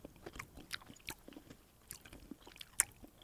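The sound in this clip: Sour or salty licorice being chewed, faint soft wet clicks and small crunches, many of them in an uneven rhythm.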